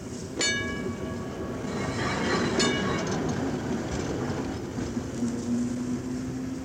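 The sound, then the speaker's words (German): A city tram railcar drives slowly off through the depot yard at midday, its low rolling rumble steady throughout. Two brief metallic ringing hits come early, and a faint motor whine rises toward the end. “Über dem in heißer Mittagssonne liegenden Betriebshof der städtischen Straßenbahn fährt langsam der fahrplanmäßige Triebwagen des großen Rings, holt sich im Depot seinen Anhänger und begibt sich auf seine Tour durch die Stadt”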